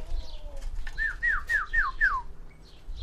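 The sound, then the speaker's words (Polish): A bird calls at a feeder as food is put out: five clear whistled notes, each sliding downward, in a quick, even series, fairly faint over a low background hum. “mamy karmę i ptaki zaraz będą wszystkie.”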